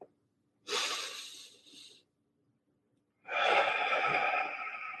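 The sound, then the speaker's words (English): A slow, deep breath: a long audible inhale, a quiet pause, then a longer, drawn-out exhale, with no other sound around it. “One more deep breath.”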